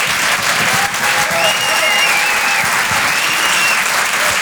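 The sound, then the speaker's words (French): Theatre audience applauding at a packed comedy show, a dense, loud, unbroken wash of clapping that holds steady throughout, with a few thin whistles riding on top in the middle. “Je vous demande de l'encourager, faites un maximum de bruit s'il vous plaît pour Guillaume Fosco.”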